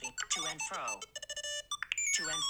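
A melodic phone ringtone previewed while browsing selectable tones: quiet, quick sequences of bright chiming notes and rippling harmonic sweeps, played in short, choppy bursts.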